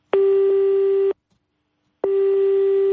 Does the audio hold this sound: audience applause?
no

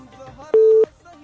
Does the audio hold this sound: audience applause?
no

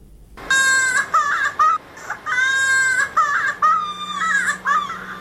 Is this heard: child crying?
yes

